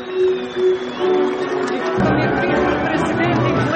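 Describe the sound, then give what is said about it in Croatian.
Crowd noise from gathered citizens and guests in Pristina at a ceremony marking 20 years since NATO forces entered Kosovo. A voice is heard first, then a loud, broad swell of crowd sound sets in halfway and holds to the end. “Uz aplauz i uzvike USA, okupljeni građani i gosti u Prištini dočekali su na centralnoj manifestaciji povodom 20 godina ulaska NATO snaga na Kosovo glavne aktere”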